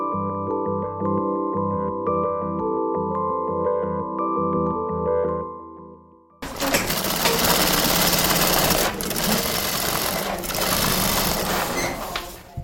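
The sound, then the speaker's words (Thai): Sewing machines run in a small sewing workshop in North Melbourne where experienced women are sewing: a steady whir with rhythmic stitching pulses for about six seconds, then an abrupt switch to a louder, denser, noisier mechanical drone. “ที่เวิร์กช็อปเล็กๆที่นอร์ทเมลเบิร์นนะคะมีกลุ่มสตรีที่มีประสบการณ์ด้านการเย็บผ้ากำลังทำงาน”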